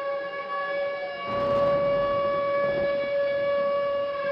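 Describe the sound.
Midwest tornado warning siren: a loud, steady, sustained wailing tone rich in overtones, joined partway through by a broad rushing noise that carries on to the end.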